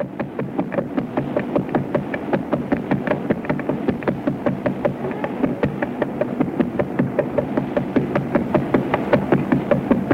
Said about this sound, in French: Je vous propose d'écouter justement un document sonore. C'est le son d'un pulsar.